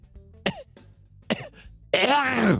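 A person imitates the cough of an old dog with heart failure and fluid in its lungs: two short hacking bursts, then a longer, louder, rasping, strained cough.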